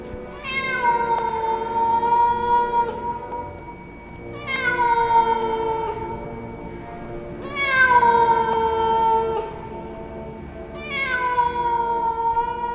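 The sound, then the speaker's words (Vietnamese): A cat yowls at night with cries like a wailing child, four long drawn-out calls spaced a few seconds apart, each starting high and sliding slightly lower before fading, with no other sounds. “dường như tiếng gào của con mèo làm cho mọi người bàng hoàng tỉnh giấc”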